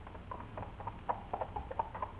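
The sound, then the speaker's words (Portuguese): Hooves of a saddled horse clip-clop as a rider sets off, a steady run of many light, fairly faint hoofbeats in quick succession with no voices. “E mandando selar o seu cavalo, rumou incontinente para a situação vizinha.”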